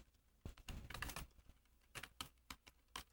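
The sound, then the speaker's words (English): Typing on a computer keyboard, a quick, irregular patter of many faint clicks and clacks with no other sound. “I'm typing again.”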